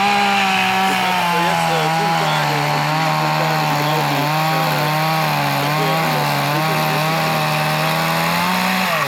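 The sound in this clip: A chainsaw carving a wooden figure drones loudly and continuously, its engine pitch wavering slightly as the chain bites into the wood.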